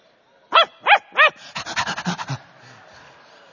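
A person imitates a barking dog with three sharp, evenly spaced barks, then a quick run of panting huffs that trails off.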